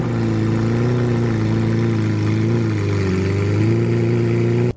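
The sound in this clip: Loud, steady engine drone from a Lamborghini sports car, a deep layered tone held for several seconds, its pitch dipping briefly and then climbing back near the end.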